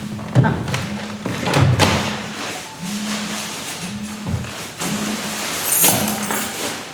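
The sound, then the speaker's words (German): A Monday alarm clock that was never switched off goes off, sounding a low buzzing tone in repeated pulses of roughly a second each. Occasional thumps and a speaking voice run alongside the buzzing. “Das ist mein Montagswecker. Ich fahre gleich ins Dock. Ah, ist noch eingestellt. Ich habe den irgendwie noch nicht ausgestellt.”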